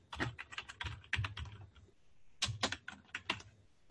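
Computer keyboard typing as someone enters the word "supplement" into a search box: a burst of quick, crisp keystrokes, a short pause, then a second rapid run of clicks.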